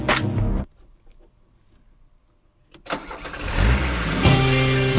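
A car engine starts up after a short burst of noise and a quiet pause, then runs loud and steady with a rising mid-pitched hum.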